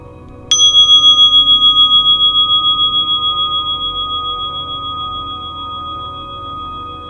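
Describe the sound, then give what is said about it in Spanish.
A meditation bell struck once, a bright, clear ringing tone that wavers gently as it slowly fades over several seconds, with no voices. “Vamos a escuchar un sonido más de la campana para cerrar esta corta meditación.”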